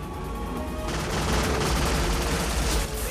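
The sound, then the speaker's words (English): Dense, rapid gunfire from pirates' guns on a motorboat, a hail of bullets raining down on an orange dinghy in a bay, a continuous rattling barrage that grows louder after the first second. “A hail of bullets rain down on the orange dinghy.”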